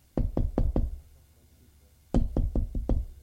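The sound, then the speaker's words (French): Knuckles rap on a hotel room door in two bursts. Four quick, even knocks come first, then a silent pause, then five more knocks at a similar brisk pace. The knocks are dull and mid-loud, with no talk. “Il trouve la chambre 203, hésite un moment et frappe. Pas de réponse. Il frappe encore une fois.”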